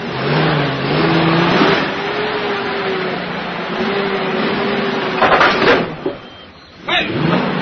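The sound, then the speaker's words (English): A car engine runs as the car is driven out of a parking space, a steady motor hum with slight rises in pitch and a few brief surges of revving toward the end. “I'm trying to unpark my car.”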